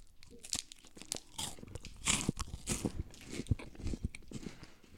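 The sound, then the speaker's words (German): Crunchy biting and chewing of a Storck Knoppers hazelnut wafer bar. Many sharp, crackling crunches come in an irregular rhythm, some louder than others, mixed with softer wrapper-like crinkles, with no talking. “Hier liegen Knoppersriegel, Nussriegel von Stork. Mmh, lecker, lecker, lecker, lecker, lecker.”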